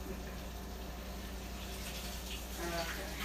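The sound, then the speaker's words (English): Tap water runs while a pie plate is washed out, an even hiss and gush lasting the whole clip, with a voice faintly present. “And if, like me, you have to wash out your pie plate, it's fun, isn't it?”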